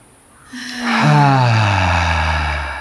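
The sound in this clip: A loud, voiced exhale during a breathing exercise: a long sighing breath out that swells quickly, holds a strong tone with a slightly falling pitch, and fades gently.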